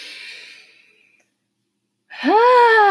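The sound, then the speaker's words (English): A deep breath drawn in during a guided breathing exercise: a soft, airy rush that fades out over about a second. After a silent pause, a loud voiced, sighing tone rises and then eases down in pitch. “Another big breath in.”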